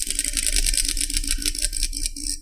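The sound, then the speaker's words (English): A prize wheel being spun gives a rapid, even run of rattling clicks that continues throughout, quite loud and with no voices. “you want to spin that wheel for me? I would love to.”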